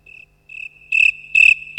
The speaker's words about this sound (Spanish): Se han ido hasta los grillos.